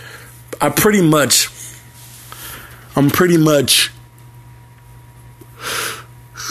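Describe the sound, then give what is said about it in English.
A tired man yawning twice, each a drawn-out voiced breath whose pitch slides downward, with a pause between and quiet breathing after. “I'm sorry for all the yawning. Like I said, I've been tired.”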